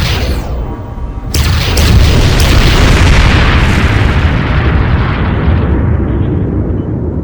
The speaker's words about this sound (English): Railguns armed. Firing.